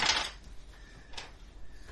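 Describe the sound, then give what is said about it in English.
Playing cards swept across a table during a tabletop game: a soft papery swish at the start, followed by a few lighter scrapes and slides, all fairly quiet. “I know, I'm just sweeping cards.”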